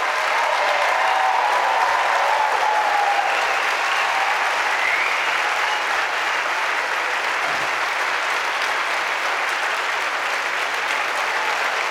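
An audience at an opening convocation of Goshen College gives long, steady applause, a thick, even wash of clapping that holds without letting up.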